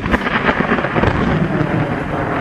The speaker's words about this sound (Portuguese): E os raios caem.